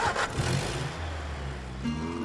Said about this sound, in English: Keeping his eyes averted, he leans forward and starts the engine.